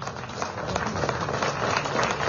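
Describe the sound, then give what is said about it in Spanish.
Applause at a municipal award ceremony honouring a table tennis athlete, with many overlapping claps forming a steady, moderately loud patter that swells slightly toward the end. “Aplaudimos, por favor,”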